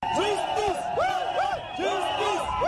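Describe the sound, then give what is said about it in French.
Protesters shout outside the trial of civil society leaders in Chad, a loud crowd of overlapping voices with rising and falling cries that go on without a break. “C'est le cri des manifestants ce jeudi matin aux environs de 8 heures, peu avant l'ouverture du procès des 4 leaders des organisations de la société civile arrêtés et détenus depuis plus de 2 semaines.”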